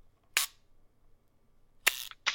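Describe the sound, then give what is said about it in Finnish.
Sharp mechanical clicks from a Smena film camera shutter as a photo is taken: a few crisp, bright snaps spaced apart, with near silence between them and no talking. “Sä otat näin sen kuvan.”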